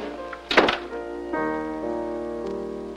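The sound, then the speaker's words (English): A door being closed gives a single solid thunk, followed by soft, sustained musical tones that continue steadily to the end. “closes the door behind them.”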